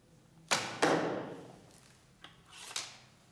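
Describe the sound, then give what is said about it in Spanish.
Arrows shot during archery practice give four sharp hits, each a quick snap that fades away. A louder pair comes close together early on, and a softer pair follows near the end. “se relaja practicando tiro con arco. Durante la práctica, solo existe una tarea: apuntar y disparar.”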